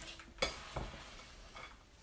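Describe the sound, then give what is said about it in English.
A spoon stirs spiced mince pie mixture in a bowl, giving a few faint clinks and scrapes against the bowl over a quiet, steady background. “I'm just giving it a good stir now.”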